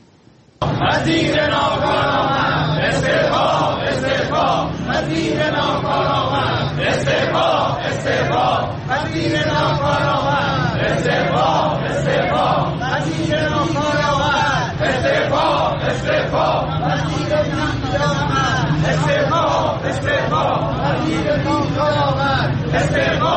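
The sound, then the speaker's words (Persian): A crowd of protesting teachers in front of the Education Ministry building in Tehran chants loudly in unison, a rhythmic wall of shouting voices that holds steady almost from the start to the end. “در تهران دوم اردیبهشت گروهی از معلمان و آموزگاران روبروی ساختمان وزارت آموزش و پرورش نسبت به پرداخت نشدن مطالباتشون دست به تجمع اعتراضی زدند.”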